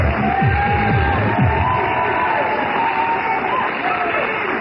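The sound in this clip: Stadium-style crowd cheering played as an effect, a loud, sustained roar of many voices with whoops and shouts running steadily from start to end.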